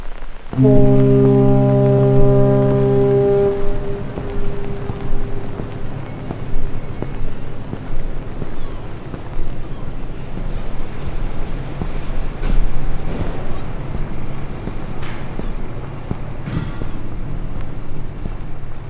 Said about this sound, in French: Devant moi, il y a la mer.